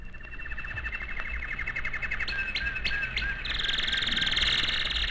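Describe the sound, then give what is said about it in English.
Goldfinch song from a Michigan bird: rapid, repeated high chirps and trills over a steady hiss, growing denser and brighter toward the end. “You know what that is? Well, it's the song of the goldfinch. A Michigan bird, all right, but one you don't hear very often.”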